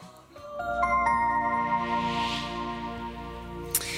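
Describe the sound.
A radio station's time chime marks 9:30 before the local news: several sustained, bell-like tones enter one after another and ring on together. A short, sharp click sounds near the end.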